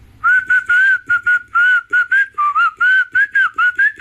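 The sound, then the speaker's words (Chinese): A person whistles a tune: many short, clear notes in a wavering melody that rises and falls, fairly loud, with no talk. “吹什么口哨呢？”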